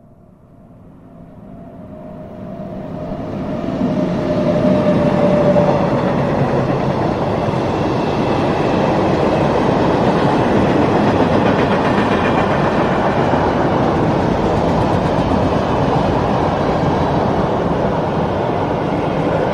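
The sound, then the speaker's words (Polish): A freight train passes on a track without noise barriers, peaking around 92 decibels. Its rumble swells over about five seconds into a loud, steady roar of wheels and wagons that holds throughout. “Słyszymy pociąg towarowy przejeżdżający trasą bez zamontowanych ekranów akustycznych.”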